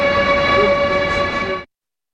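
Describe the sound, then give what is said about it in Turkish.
A domestic high-speed electric train runs with a loud, steady tonal hum, ringing overtones held evenly before the sound cuts off abruptly. “kilometre hıza ulaşabilen yerli elektrikli trenler üstün teknolojisiyle de göz dolduruyor.”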